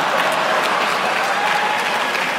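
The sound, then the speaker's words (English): Audience applause, a brief wash of steady, moderate clapping with no clear peaks or breaks, lasting a couple of seconds. “You're gonna get lukewarm applause at USC for some of the kids here.”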